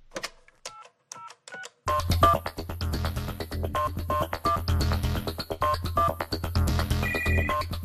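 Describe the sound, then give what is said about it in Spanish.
A radio jingle for a call-of-the-day segment opens with a few telephone-like beeping tones. A busy electronic track follows, with a steady, pulsing low beat and bright, high tones. “vamos a escuchar la musiquita de la llamada del día”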